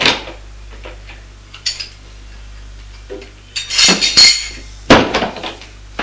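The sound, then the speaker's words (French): A plate and cutlery clinking as the plate is hurriedly put away. A few faint knocks are followed by bright bursts of metallic and ceramic clatter, with no voices. “Vite, elle range l'assiette.”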